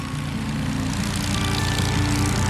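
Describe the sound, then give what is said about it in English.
Classic aircraft engines at an aerodrome, heard as a steady, throbbing propeller drone with low harmonics that stays loud and unbroken throughout. “Conversations between friends, fellow aircraft type owners, and total strangers take place with the background ambience of classic aircraft engines,”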